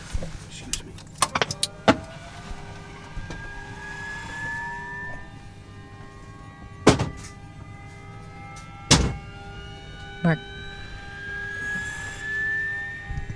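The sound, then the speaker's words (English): Switch clicks and electrical whines as an aircraft's main batteries and its newly plugged-in external power are switched on. Several sharp clicks stand out over a faint hum, while thin tones slowly climb in pitch. “So this is the main batteries, and our colleague here from engineering is about to turn the external power on, which has just been plugged into the aircraft.”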